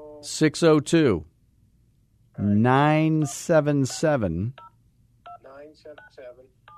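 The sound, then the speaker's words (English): Telephone keypad dialing tones sound as a few short, clipped beeps near the end, following stretches of people talking. “I think we can hear you dialing. That's really cool. Yeah, that is not a sound effect. It's not a sound effect. That was real.”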